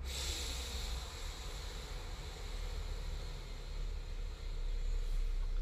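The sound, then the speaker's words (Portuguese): A slow, controlled exhale through the right nostril during an alternate-nostril breathing exercise: one soft, steady, airy hiss of breath that continues without a break at low volume. “Bem devagarzinho, vai soltando o ar pela narina direita.”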